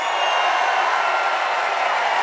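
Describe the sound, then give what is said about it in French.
Crowd noise from the audience at a live show in Marseille, a dense, even roar of cheering and applause that holds steady without breaks throughout. “Ah ouais, mais le public est en folie là.”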